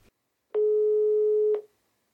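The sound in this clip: Telephone ringback tone heard while calling: a single steady, mid-pitched tone lasting about one second, alone and fairly loud, then silence.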